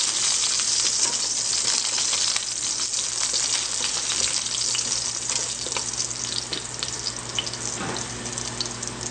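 Garlic and spring onions fry in a pan with a steady, dense sizzle, a bright crackling hiss that carries on without a break and has scattered small pops.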